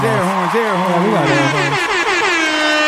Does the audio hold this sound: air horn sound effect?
yes

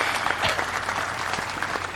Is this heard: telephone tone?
no

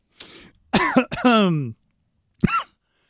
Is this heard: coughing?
yes

